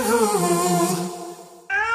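A cat meows: a long, drawn-out wavering cry, then a brief gap and a shorter, higher-pitched meow.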